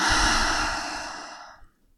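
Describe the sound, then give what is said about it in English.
A slow, deep breath pushed out in one big, breathy exhale. It starts loud and fades steadily over about a second and a half into near silence. “Let's take a slow deep breath into theme number three and a big exhale out.”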